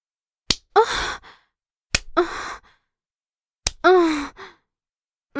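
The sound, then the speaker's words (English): Three sharp hand smacks on bare buttocks, evenly spaced and loud, each followed right away by a breathy vocal sigh or moan that fades out. “Do you hear that sound? It's me smacking my ass just for you.”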